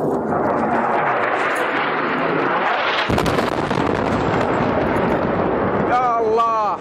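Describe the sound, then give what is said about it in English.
An airstrike in Yemen produces a loud, continuous roar of explosions with a sharp blast partway through, followed by raised, shouting voices near the end. “Airstrikes like this one are a daily event in Yemen”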